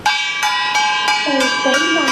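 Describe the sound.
A gong is struck over and over beside a robot under test: seven sharp metallic hits at a steady, fairly quick pace, each ringing on so the tones overlap. A voice-like gliding sound runs under the later hits.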